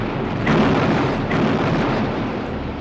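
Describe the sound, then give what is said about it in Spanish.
Cannon fire at the Battle of Waterloo, Napoleon's artillery opening on Wellington's lines: a loud, continuous booming roar of heavy rumble, broken by two brief, sharper blasts. “Y al fin, a las 11:20 de aquel día, ordenó Napoleón Bonaparte abrir fuego contra Wellington.”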